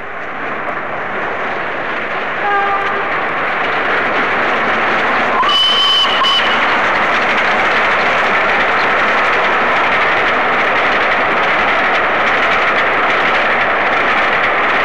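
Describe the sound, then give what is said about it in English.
Flying Scotsman, a Gresley Pacific steam locomotive, picks up speed near Hornsey after leaving King's Cross in 1966, a steady loud roar that slowly swells, with a brief high tone partway through. “Flying Scotsman again left from King's Cross on a trip to the north, and here's a sound of her running, picking up speed in the Hornsey area.”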